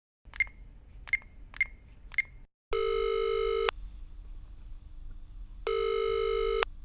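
Telephone sounds for a return call: four short, sharp dialing beeps, then two long, buzzing ring tones separated by a pause of steady background noise.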